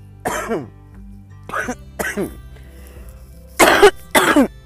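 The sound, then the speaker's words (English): Harsh coughing and choking from smoking premium organic hemp, a series of loud, raspy bursts separated by short pauses, the last two the strongest. “excuse me smoking and choking on some premium organic hemp”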